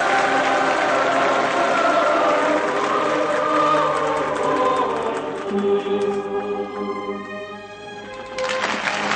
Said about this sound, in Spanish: Cae el telón. El público aplaude de pie.